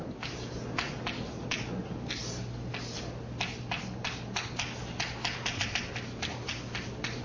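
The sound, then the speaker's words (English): Writing down a mathematical formula produces a faint, irregular patter of quick taps and strokes over a steady low hum. “So I explain it in a second. I just write it down first.”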